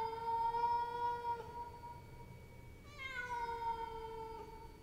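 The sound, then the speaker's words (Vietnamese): A cat meows twice, each call long, drawn out and clearly pitched. The second meow dips slightly in pitch as it begins. The calls come alone, with no talk. “Con mèo nghiêng nghiêng đầu nhìn thằng Luân, đoạn kêu lên mấy tiếng meo meo, rồi nhảy ra ngoài cửa sổ”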